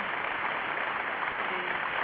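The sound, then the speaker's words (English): Dense audience clapping fills the whole stretch as a steady, unbroken wash of many hands, fairly loud and even throughout, with no single claps standing out. “went from booing them to clapping them.”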